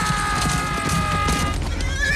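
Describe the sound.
Horses neigh and hooves pound as mounted knights charge peasants across grass toward woodland. Shrill, wavering whinnies ride over a steady, loud thudding of hooves throughout.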